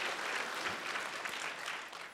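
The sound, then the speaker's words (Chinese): Congregation applauding during a church service, a dense, steady patter of many hands clapping that fills the whole stretch at a fairly soft level. “为你自己真的要鼓掌啊。”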